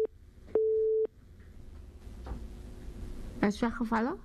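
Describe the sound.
Telephone busy tone after a dropped call: one steady mid-pitched beep of about half a second, preceded by the clipped end of another, then faint line hiss and a person starting to talk.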